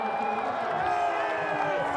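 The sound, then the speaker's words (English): Spectators cheering at a race in Santon, a sustained roar of voices and whoops running throughout, with a voice talking over the crowd. “Bath time has the crowd on its feet here in Santon today.”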